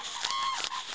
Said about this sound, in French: Ce que vous entendez là, c'est les grues qui menacent les aigles pour pas qu'elles viennent leur piller le poisson.